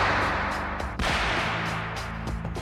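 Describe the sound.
Gunshots are fired at the Pope as he greets a crowd from an open vehicle. One sharp crack stands out early over loud, continuous crowd noise.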